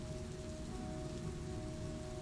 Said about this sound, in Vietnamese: Ngoài trời lúc này mưa vẫn rơi như trút nước, sấm chớp sáng loá cả một góc trời.